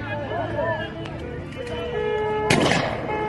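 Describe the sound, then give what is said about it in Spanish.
Gunfire is aimed at the people recording during a crackdown, with shooting continuing after an officer calls for it to stop. A few sharp cracks sound under excited talking, ending in one loud bang. “Avanza disparando contra nosotros. Están sacados. Ahí viene el oficial pidiendo basta y siguen disparando.”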